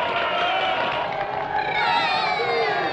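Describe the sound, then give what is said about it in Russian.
Theater audience applauding as a glittering curtain falls, a dense, steady roar of clapping blended with crowd noise and light cheering, sustained without break. “Блестящий занавес опускается. Все хлопает.”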